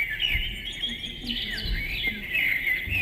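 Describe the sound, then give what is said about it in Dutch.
Recorded birdsong whistles from a sensor-triggered birdhouse: a steady stream of bright chirps and trills at moderate loudness, with no talk. “Dit is een birdie box. Dat is een vogelhuisje met een sensor. Als je daar langs loopt, dan gaan de vogeltjes fluiten.”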